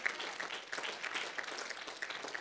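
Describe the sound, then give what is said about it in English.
A church audience claps its hands in worship, a continuous fairly quiet patter of many hands at a steady density. “Would you clap your hands unto the Lord?”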